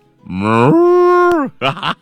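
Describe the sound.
A cow lets out one long, loud moo that rises at the start and then holds a steady, droning pitch before breaking off.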